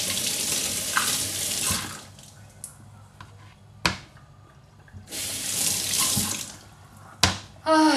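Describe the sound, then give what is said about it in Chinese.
Tap water rinsing an onion in a sink: two bursts of running water splash for about two seconds each, separated by a quieter gap with a few sharp knocks and clunks. “我拿水给它冲一下，有点太臭了。”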